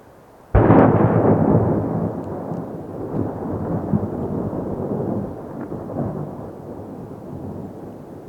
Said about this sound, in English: waiting for avalanche blasts.